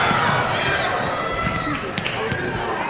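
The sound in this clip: A basketball is dribbled with a crossover on the court during a game, a few bounces thudding under constant loud crowd noise and an announcer's voice.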